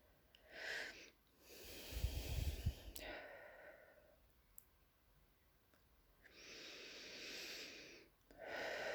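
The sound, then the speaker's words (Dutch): Faint, slow breathing in through the nose and out through the mouth during a guided breathing exercise. Several long, airy breaths rise and fall with quiet gaps between them, and no one speaks. “Adem vervolgens nog even 3 keer door je neus en uit door je mond.”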